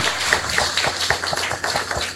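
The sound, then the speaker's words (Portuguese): Applause greets pilgrims and devotees at a Santa Teresinha celebration, a moderately loud round of many hands clapping with a steady rhythmic pulse of low thumps throughout. “Acolhemos a todos com a salva de palmas.”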